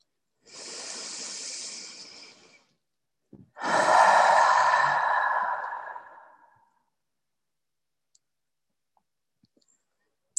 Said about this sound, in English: Inhaling and exhaling.